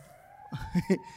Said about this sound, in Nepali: कस्तो साइरन बजाएर यार